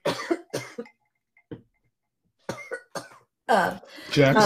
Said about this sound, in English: Sorry, I'm coughing over nothing.